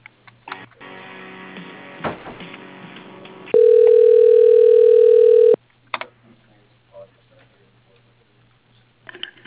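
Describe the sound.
A single long, steady telephone ring tone sounds while a call is transferred during a business call. It lasts about two seconds, with murmured voices before it and mostly quiet line noise after.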